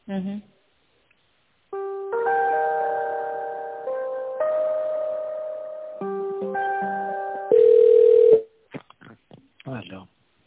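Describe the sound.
Electronic telephone tones while a call is transferred: a series of steady, sustained beeping notes that shift between pitches in a simple melodic pattern. A louder, buzzier tone comes near the end, followed by short broken sounds.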